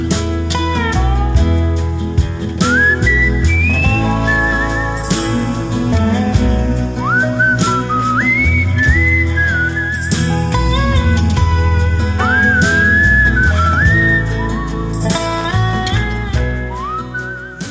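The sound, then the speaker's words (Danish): Whistling carries the melody of a slow, gentle song about an old station, a clear, steady tune of sliding notes and sustained tones over a continuous low instrumental backing throughout. “fløjtede sig ud af den her sang om den gamle station”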